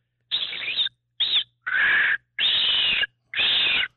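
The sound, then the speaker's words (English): A person imitates a bird's call, a hiss-and-whistle cry thought to be a hawk or eagle calling for food. Five loud, breathy hissing bursts come with short gaps between them, and no one talks. “I hear a bird calling. It's kind of like a hiss and a whistle. I thought maybe it was a hawk or an eagle calling for food. Okay. Can you make the sound?”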